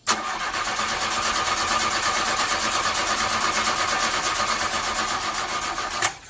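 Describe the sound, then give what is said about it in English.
A go-kart engine is being started, giving a steady, rattling mechanical whirr that holds for about six seconds before cutting off abruptly. “Okay, let's not give up so quickly. Peppa's going to try starting the vehicle again.”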